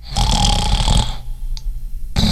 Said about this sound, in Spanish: Si roncar fuera un deporte olímpico, yo ya tendría medalla de oro.